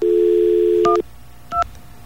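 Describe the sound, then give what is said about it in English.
A telephone keypad dials a teleconference number: a steady dial tone stops as the first key beep sounds, and a second short two-tone keypad beep follows a moment later. “And yes, I know I'm giving out the phone number, but it's so much fun, you know.”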